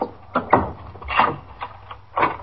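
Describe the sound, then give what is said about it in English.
A door chain slides off and a door is pulled open, heard as a few rattling metallic clicks and knocks in short bursts, with no talking. “I'll take the chain off the door.”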